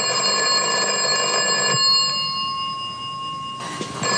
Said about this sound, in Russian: Он обещал мне позвонить. Алло?